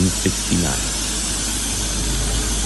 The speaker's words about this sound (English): But here, this steam isn't just nostalgia. Only steam engines have pinions, and that's why this railway still uses steam engines for the steepest part of its journey.